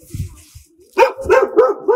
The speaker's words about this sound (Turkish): Köpekle de, köpek sesiyle de finali yaptık.